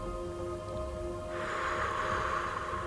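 A person blowing air out in a long, steady exhale. The soft, airy hiss starts about halfway through and holds to the end over a faint constant hum.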